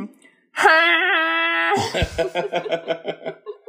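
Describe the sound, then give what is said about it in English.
A voice imitates Eliza Doolittle's wailing moan from My Fair Lady: one sustained, nasal, wavering wail lasting over a second, then breaking into short, choppy laughter. “That's the noise that Audrey Hepburn makes as Eliza.”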